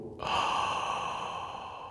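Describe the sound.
A deep inhale during a vocal breathing exercise: one long, steady, airy breath that starts abruptly and holds at an even level, with no talk.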